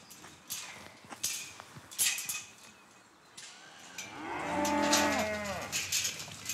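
A nine-year-old lead cow on a farm gives one long, loud, deep moo that swells and fades, after a few scattered knocks and clatters.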